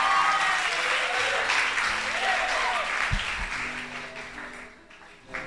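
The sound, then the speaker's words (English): Applause from a church audience welcoming a speaker to the front: thick, sustained clapping that holds steady, then thins and fades near the end, with some voices mixed in. “Let's put our hands together and let's welcome Brother Evander Griffiths.”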